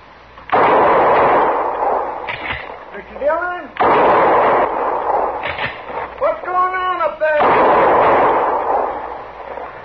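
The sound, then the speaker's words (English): Three heavy gunshots ring out in a western drama, each a loud sharp blast with a long decaying tail. A man's voice speaks between the shots. “Somebody was shooting at me, Chester.”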